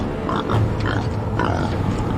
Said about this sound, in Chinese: 一只野猪就这样下了车。野猪谨慎地巡视着四周，空气中老虎的气味让它紧张起来。